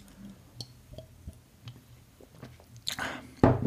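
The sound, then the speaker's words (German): A sip from a bottle of Club-Mate: faint mouth clicks and small wet sounds, then a short airy rush and a louder gulp at the end, with no voices. “ich muss mal kurz äh, einen Schluck trinken, einen Moment.”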